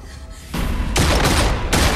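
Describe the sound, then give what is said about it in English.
A dense fusillade of gunfire, many bullets fired at once in a rapid, continuous volley of loud, noisy bursts. The shots start softer and swell sharply about halfway through. “Chris walks towards the terrorist, splitting into multiple expendable Chrises who take the many bullets.”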